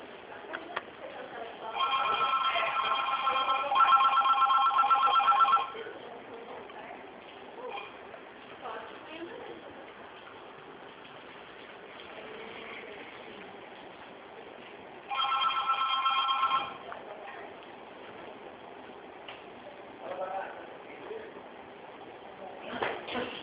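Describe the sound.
A mobile phone rings with a bright, warbling electronic ringtone in two loud bursts, the first lasting several seconds and the second shorter, separated by a long pause filled with faint background noise.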